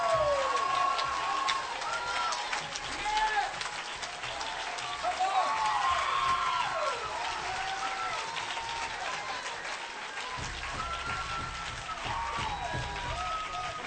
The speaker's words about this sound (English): Raise your hands again. Lift your voice again. Dance one more time. Give God one more hand clap.